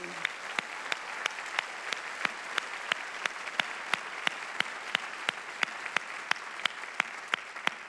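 Church audience clapping in an even, rhythmic beat, with sharp, evenly spaced claps repeating steadily over a soft background wash and no clear cheering.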